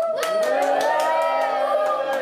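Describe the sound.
An audience cheers and shouts loudly to vote for an option, many excited voices blending into one steady burst of cheering.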